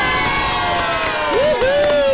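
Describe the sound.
A room full of children cheering and shouting for their undefeated team, a loud, sustained crowd roar with a high whooping voice rising out of it toward the end.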